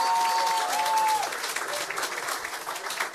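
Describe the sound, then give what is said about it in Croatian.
Applause rises from a crowd at a Croatian party gathering celebrating a county prefect's first-round election win. The clapping is dense and steady, loudest at the start and easing slightly as it goes on. “Molim vas, jedan pljesak za njega.”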